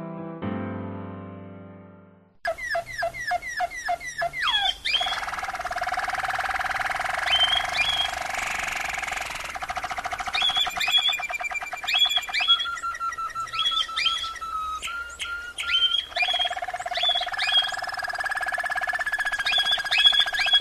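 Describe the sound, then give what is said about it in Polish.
A canary and two budgerigars chirp together in a dense, lively stream of high twittering, trills and sharp repeated calls. The chirping stays loud and continuous, with no voices. “czy my tu mamy może zoo? Jakie tam zoo? Zaledwie jeden kanarek i dwie papuszki.”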